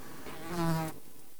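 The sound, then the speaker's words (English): Brief insect buzz of a mosquito landing on a comatose patient's skin in a hospital ward: a single thin, droning hum that swells and fades within about half a second, then quiet, with no voices. “A mosquito lands on her skin and begins to drink some of her blood.”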